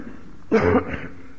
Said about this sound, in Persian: ببخشید این سرما خوردگیه، سینه ما هم گوش شما رو آزار میده.